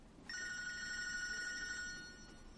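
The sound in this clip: A telephone rings with a bright, steady electronic tone that starts abruptly, holds for well over a second, then fades out, with no voices over it.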